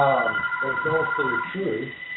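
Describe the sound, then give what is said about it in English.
An office telephone ringing, its steady electronic tone running continuously beneath a person talking throughout. “I've got an office phone that's ringing. We're just going to take care of that right now.”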